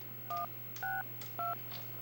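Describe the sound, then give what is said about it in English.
Touch-tone keypad beeps from a white telephone as a number is dialed: three short, evenly spaced dual-tone presses, each at a slightly different pitch, over a faint low steady hum. “I don't remember how many digits he dialed, but it certainly wasn't seven.”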